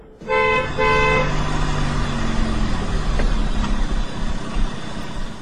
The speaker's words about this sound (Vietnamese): Có một chiếc xe hơi ngừng ngay cửa.